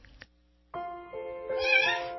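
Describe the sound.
A cat meows in one drawn-out, tonal call that swells louder toward the end, heard alone after a short, quiet start.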